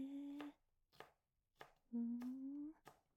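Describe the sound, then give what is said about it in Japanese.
A knife chops an onion lengthwise along the grain, making five sharp, evenly spaced taps. A steady tone sounds beneath some of the cuts. “玉ねぎって縦に切ればいいんだ。繊維の向きに沿って切るってそういうことか。”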